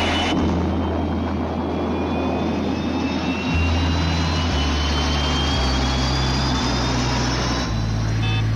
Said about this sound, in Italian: Decollo perfetto, comandante.